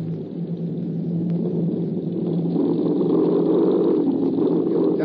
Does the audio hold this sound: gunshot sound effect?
no